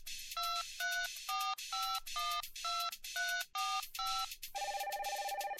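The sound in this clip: A phone number is dialed on a touch-tone keypad as nine short two-tone beeps in a steady rhythm, followed by a longer warbling tone.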